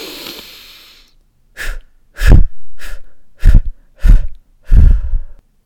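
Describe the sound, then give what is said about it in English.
Breathing in a calming exercise for fear and worry: a long, airy inhale, then six short, forceful exhales in a steady rhythm. Loud and clear, with no talk. “you take that big, deep breath in, and then you breathe out 5 times”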